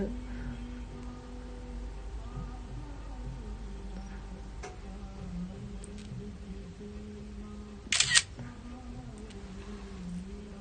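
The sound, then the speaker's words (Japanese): A camera shutter clicks once as a photo is taken, a sharp, brief snap with a quick double edge that cuts through a steady low hum. “写真を撮りたいと思いますじゃじゃん上手に撮れるかな”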